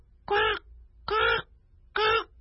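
A crow caws three times, each caw harsh, nasal and drawn out, evenly spaced with short silences between them, loud and alone with no other sounds.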